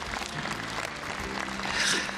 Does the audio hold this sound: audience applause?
yes